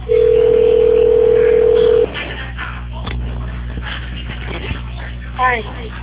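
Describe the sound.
Telephone ringing tone while a call connects after a phone menu, one steady mid-pitched tone lasting about two seconds, then it stops and a voice speaks over a thin, narrow-sounding phone line.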